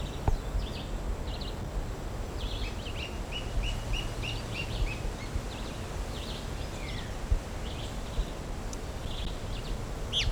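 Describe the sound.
Bird calls given near the nest come as many short, high chirps in irregular runs, fairly faint over a steady background of rustling noise.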